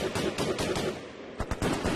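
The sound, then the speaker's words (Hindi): Light machine gun fire in battle: rapid, sharp bursts of shots follow one another in an uneven rhythm, loud and dense throughout, with no voices. “घायल अवस्था में भी पूरी फुर्ती से हवलदार दयाराम ने LMG को संभालते हुए दुश्मनों पर गोलियों की बौछार शुरू कर दी।”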